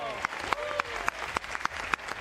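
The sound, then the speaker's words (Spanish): Rhythmic audience applause at a school event in a shopping centre, hands striking together in unison on a steady beat of about seven loud claps over a continuous crowd hubbub, with voices also present. “Hoy tenemos con nosotros, y queremos muchos aplausos, el IES Príncipe Felipe desde Barrio del Pilar.”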